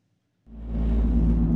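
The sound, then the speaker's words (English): Car tyres running onto a roadside rumble strip, a sudden loud low droning rumble that begins abruptly after near silence and holds steady with a dense buzzing vibration. No voices. “That's the sound of a car crash being prevented by a rumble strip.”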